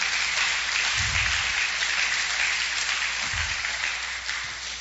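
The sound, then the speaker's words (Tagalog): Congregation applause at a church worship service: dense, steady clapping that holds a level roar for several seconds, with no speech. “Palakpakan po natin ang Diyos. Hallelujah.”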